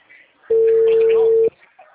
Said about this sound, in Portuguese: Aí que eu tô ligando pela URA agora, pra ver se eles atendem.